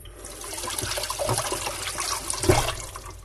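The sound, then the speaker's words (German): Running water splashes steadily as zucchini are rinsed under it while cooking, a continuous rushing flow that swells slightly louder toward the end, with no talk. “Eben waschen die Zucchini auch.”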